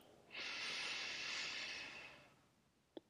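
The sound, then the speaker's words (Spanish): A slow inhaling breath taken during a guided relaxation breathing exercise. It is a soft, airy hiss that holds steady for about two seconds and then gradually fades, followed by a brief faint click. “Volvemos a inhalar”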